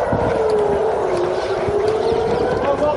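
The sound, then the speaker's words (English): An air raid siren wails during a rocket attack, a loud, sustained mid-pitched tone that dips slightly and then climbs again over a rumbling background. “Air raid sirens blare.”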